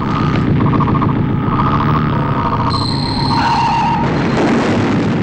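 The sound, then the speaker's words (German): Spacecraft engines roar during a test run: a dense, steady roar fills the whole stretch, with high tonal whines layered on top that shift partway through. “Wir übertrugen den Probelauf der Triebwerke des Kosmokrators.”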